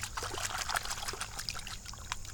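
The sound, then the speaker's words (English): Water trickles and splashes while an orange Srixon golf ball is washed off, making a brief, fairly faint, irregular dribbling sound. “an orange Srixon number 2. Wash it off.”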